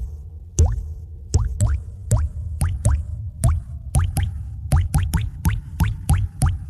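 Water drips from a plumbing leak as many resonant plops, each with a short ringing tone that rises in pitch. The drops fall at an uneven rhythm, clear and alone.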